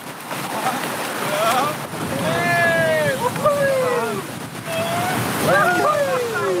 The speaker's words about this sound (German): also bis jetzt war die Salza sehr ruhig und sehr gemächlich, aber da vorne geht es jetzt echt dahin. Mal schauen, ob wir das können. Alle vorwärts paddeln, nicht rudern